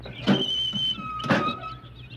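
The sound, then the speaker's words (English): A creaky toolbox lid is pried open with two drawn-out hinge squeaks, each a thin, high-pitched whine with a scraping rasp. The first squeak is longer and the second is shorter, and the sound is moderate in level. “Now, let me get this lid open.”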